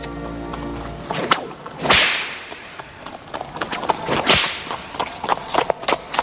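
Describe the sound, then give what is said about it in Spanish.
A leather whip cracks again and again during training in a cave, snuffing out candles on a candelabrum. Several loud, sharp snaps stand out among quicker, lighter cracks and swishing whooshes of the lash. “En la cueva, don Diego se entrena con el látigo. A cada golpe apaga una vela de un candelabro.”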